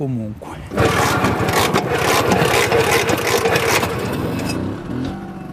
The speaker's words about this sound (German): Ein paar Mal treten und die Probe aufs Exempel gelingt. Unverkennbar der Sound der 50er Jahre. Ein Zweitakter, der sofort Erinnerungen weckt.